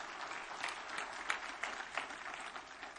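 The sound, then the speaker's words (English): An audience applauds during a sermon: many hands clapping in a steady, quiet wash of applause that lasts throughout. “Give him a good clap off. Would you do that?”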